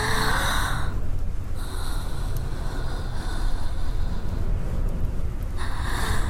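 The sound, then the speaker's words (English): Breathing close to the listener: a few slow, airy breaths, each a soft hiss that swells and stops, over a steady low rumble with no talk. “Feel my breath as I lean over your chest.”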